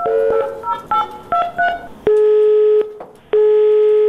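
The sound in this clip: Telephone keypad tones dial a hotline number in a quick irregular sequence, then a loud busy signal follows as repeated long steady beeps separated by short gaps.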